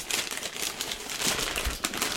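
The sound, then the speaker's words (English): Paper crinkles and rustles as a neatly wrapped green gift is torn open, with busy, irregular crackling and a few louder bursts of crumpling. “I am unwrapping right now a green one. It is expertly wrapped.”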